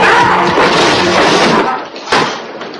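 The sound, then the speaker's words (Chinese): Golf clubs tumbling out of a closet: a dense, loud clattering rush lasts over a second, then after a short gap comes one sharp crash that fades away. “他小心翼翼地打开了壁橱的门，高尔夫球具掉了下来，吓了他一大跳。”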